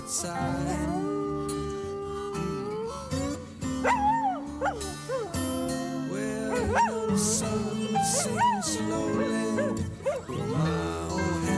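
A dog barks and howls along with a rock song, its wavering, pitch-bending yelps rising and falling repeatedly over sustained band music.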